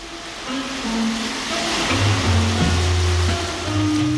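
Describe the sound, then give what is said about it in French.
Steady washing water of a calm sea off Conakry, Guinea, heard from a boat underway, with a low, constant engine hum running beneath the broad surf-like rush throughout. “La mer est calme, l'allure constante, à l'horizon, les lumières de Conakry.”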